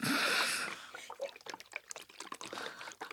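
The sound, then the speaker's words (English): Green juice made from apple, watermelon, lemon and kale is poured. It starts as a loud rushing stream, then breaks into irregular gurgles, trickles and splashes of liquid. “That is the sound of green juice.”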